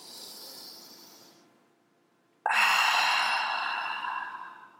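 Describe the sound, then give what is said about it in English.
A deep breath during a guided breathing exercise: a soft, airy intake, a brief pause, then a much louder, rushing exhale that slowly fades. “three or four times, just breathe deeply. You could even do it right now.”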